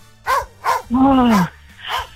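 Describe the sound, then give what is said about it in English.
A dog barks four times in a quiz to guess its breed. Two short barks are followed by a longer, drawn-out yowl that rises and falls in pitch, then one final bark. “what do we reckon that dog bark is?”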